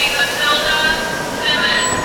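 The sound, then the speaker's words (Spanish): A train travels on rails from New York to Boston. It gives off a steady, loud rolling rumble, with thin high-pitched wheel squeals drifting in and out the whole time. “empaco yo maletas y tomo un tren de Nueva York a Boston”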